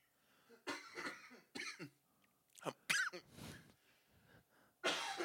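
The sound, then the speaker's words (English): A fit of harsh coughing mixed with throat clearing: several separate bursts spread unevenly across a few seconds, fairly faint, with quiet gaps between them and no talking. “stop coughing right now in Jesus' name.”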